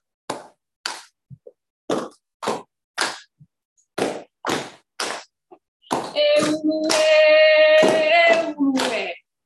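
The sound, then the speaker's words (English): Hand claps beating a Hawaiian pana rhythm of rounded upoho claps and flat pa'i claps: a series of sharp, separate claps in a repeating pattern, later joined by a sustained chanting voice over the clapping. “there's a pana or a beat that goes along with it. And it's made by two upoho or rounded claps. So if you'd like, you can join in. And then one pa'i or flat clap. So it sounds like this.”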